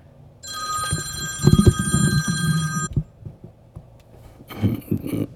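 A telephone rings with an incoming call from a daughter: a bright electronic ring lasting a few seconds, a pause, then a second shorter ring, with low thumps and rumble underneath.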